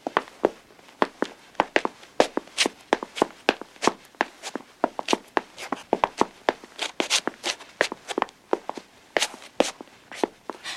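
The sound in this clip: Footsteps walking upstairs, a long run of crisp, evenly spaced treads at a steady walking pace.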